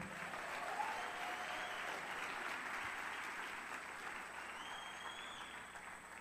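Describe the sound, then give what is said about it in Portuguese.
An audience applauds during a church service in Brasília, a soft, even wash of many hands clapping that holds steady for about six seconds and eases off slightly at the end. “Pode aplaudir ao Senhor, né?”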